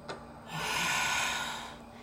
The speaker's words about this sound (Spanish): Vamos a inhalar. Sacas todo el aire